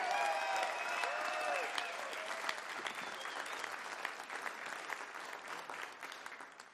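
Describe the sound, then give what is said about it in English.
A live concert audience applauds a musician with sustained clapping and a few whistles early on. The dense wash fills the whole stretch and slowly tapers. “Give it up one more time for Calvin Arcena.”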